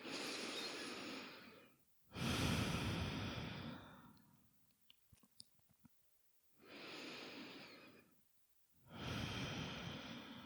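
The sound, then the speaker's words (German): Slow, deep breathing, in and out, with exhales through an open mouth. Four long, airy breaths come in two pairs, separated by a quiet pause with small clicks. “Nimm ein paar Atemzüge ein und aus. Gerne auch nochmal durch den geöffneten Mund ausatmen.”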